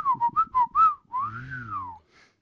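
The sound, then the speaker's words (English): A voice imitates the whistles and beeps of a film robot droid: four quick chirpy, warbling tones, then one long swooping whistle that rises and falls, and a faint last blip. “I can make R2-D2, but I can't do Chewie. Do an R2-D2.”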